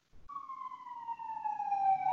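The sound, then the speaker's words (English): An emergency siren sounds outside as a single sustained wail that glides slowly downward in pitch and swells louder toward the end, with a faint low rumble beneath. “Sorry, there's sirens going on outside.”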